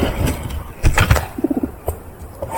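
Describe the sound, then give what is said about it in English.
An Australian echidna vocalising: a quick run of a few soft, low, cooing pulses in the middle, surrounded by breathy rustling noise and some brief louder thumps. “That is the sound of one of Australia's most iconic animals. Except unlike the laughing kookaburras and the squawking cockatoos, unlike the bellowing koalas and the grunting roos, that animal you just heard wasn't known to vocalise sounds before.”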